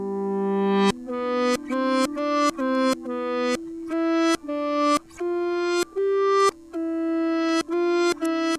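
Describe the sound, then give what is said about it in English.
A reversed guitar layer plays a series of notes, each swelling in loudness and then cutting off abruptly, giving a rhythmic, sucking pulse with no voices. “like I said, there is a reversed guitar layer in it. And so it sounds like this.”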